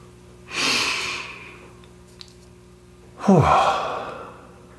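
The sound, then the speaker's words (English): Two deep breaths, each a long, loud rush of air rising and then tapering off, separated by a quiet gap, with no talking. “I like to invite you to take a few deep breaths.”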